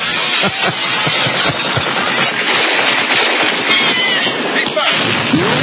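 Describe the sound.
Automatic weapon gunfire in played video footage of an attack on the White House. Dense, rapid bursts of shots keep up a loud, continuous crackling roar throughout.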